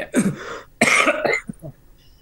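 Coughing and throat clearing from a throat dried by whiskey, with a couple of loud, harsh bursts followed by fainter raspy sounds, heard alone without talk.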